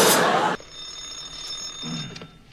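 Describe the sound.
A dispatcher's telephone rings with a steady, bright, high-pitched bell tone that holds for about two seconds, following a short burst of loud noise at the start.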